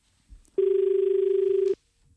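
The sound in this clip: A single telephone ring signalling an incoming call to a farming phone-in programme: one steady, buzzing electronic tone lasting just over a second, loud and clear with no talk over it.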